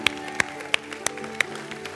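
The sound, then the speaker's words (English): Faint, sharp hand claps from a church audience giving praise, a handful of crisp smacks in a steady, evenly spaced rhythm over a low hum. “Give him a big clap offering. We praise you, Lord.”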